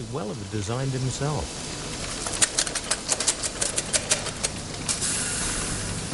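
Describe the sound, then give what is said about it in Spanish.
A machine grinding lava rock into small pieces gives many rapid, sharp clicks and rattling clacks over a steady hiss, after a brief voice at the start. “Tim Elliot comienza moliendo la lava en una máquina que bien pudo haber diseñado Julio Verne”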